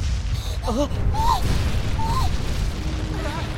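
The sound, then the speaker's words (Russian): A tree crashing down in a film scene sounds as a heavy, booming rumble with cracking and splintering noise. It stays loud and broad for the whole stretch, with a few high, wavering tonal calls riding over it. “В этот момент рушится дерево.”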